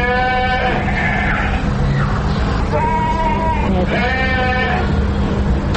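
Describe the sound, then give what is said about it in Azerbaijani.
Livestock kept in pens in front of a five-story dormitory building bleat a few times, each a drawn-out, wavering call over constant background noise. “5 mərtəbəli binanın qarşısında tövrələrdə saxlanılan mal qara, toyuq cücə səslərinə, binanın qarşısındakı soyuq artezyan suyunda növbə ilə paltar yuyan qadınların söhbəti də qarışır.”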